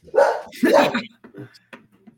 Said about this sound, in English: The dog agrees. The dog loves it. The dog loves it.